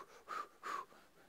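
Two deep breaths, each a soft, airy, slightly wheezy rush of air, evenly spaced and faint against quiet background.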